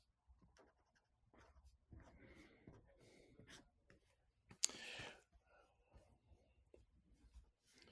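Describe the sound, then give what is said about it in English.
Faint scratching of a pen or pencil on paper as someone draws a mask, in soft, intermittent strokes with a sharper scrape near the middle. “Were you able to draw your mask? You still drawing?”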